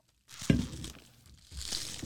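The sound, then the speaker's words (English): Wrapping on a gift basket crinkles as it is opened: a sharp crackling rustle starts the sound, followed by softer, scratchy plastic crumpling that fades and then rises again, with no talking. “I love these crinkle ASMR noises. It's barely even open, and I can smell what's inside of it.”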